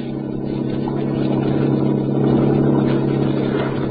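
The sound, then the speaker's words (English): A yacht engine sound effect played from a record gives a steady, low rumbling drone with a faint hiss on top, swelling slightly in loudness midway and continuing without a break. “I got a record for the yacht that doesn't have so many highs. Good. Let's hear it.”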